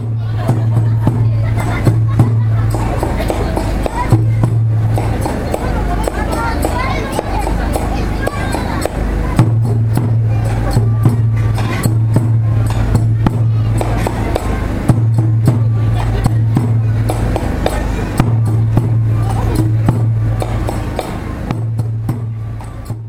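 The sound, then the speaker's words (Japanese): Music and crowd sounds from a Komagamine Shinzan kagura performance at the Joboji festival. Low, sustained tones come in broken phrases over steady percussive hits, with busy crowd chatter throughout. “こちらは駒ヶ峰新山神楽です。”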